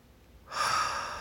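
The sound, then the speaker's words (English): A slow inhale through the nostrils during a guided breathing exercise: a soft, airy rush of breath begins after about half a second and holds steady, fairly loud, to the end. “Breathe in through your nostrils and hold for 2 seconds.”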